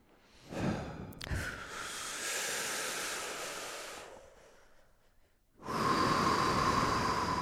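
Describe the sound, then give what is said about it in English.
A deep breath drawn in and then let out: a long airy hiss swells and fades, a short quiet gap follows, then a louder, steady rush of breath runs to the end. “Let's start with a big breath.”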